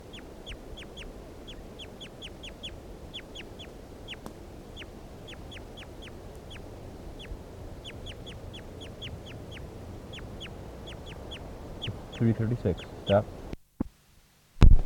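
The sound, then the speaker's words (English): Bird calls being recorded: many short, high chirps repeat in quick bursts throughout over a faint low hiss, with a few louder noises and a sharp click at the very end. “Start recording bird 336 again.”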